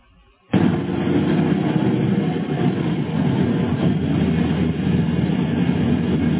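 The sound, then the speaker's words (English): Bus engine and road noise ride through a small Indian town at about 20 miles an hour on the way to Bengaluru airport. A steady, heavy low rumble starts abruptly and holds loud and even throughout. “here is a view out the bus window as we leave the monastery and drive to the airport at Bengaluru”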